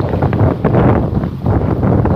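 Wind buffeting a microphone as someone walks outdoors: a loud, continuous, rough rumble that surges and dips slightly, with no voices.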